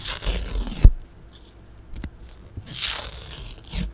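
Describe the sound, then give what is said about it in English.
Something being ripped into tiny shreds: a few short, rough tearing bursts with one sharp snap, separated by quiet gaps. “I'm still doing it a lot. I'm ripping it into tiny shreds.”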